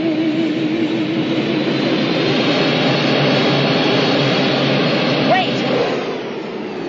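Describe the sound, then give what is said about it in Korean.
A jet airplane starting to roll slowly: a steady, loud engine roar and broad rumble throughout, with a voice talking over it. “레이첼을 태운 비행기가 서서히 움직이기 시작합니다.”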